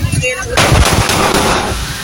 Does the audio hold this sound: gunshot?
yes